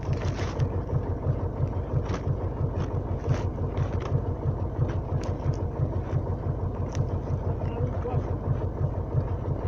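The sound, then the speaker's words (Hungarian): A tractor engine rumbles steadily with a low, even throbbing pulse, accompanied by gusts of wind noise across the microphone. “Az a traktor! Jön vissza, látod, ott van.”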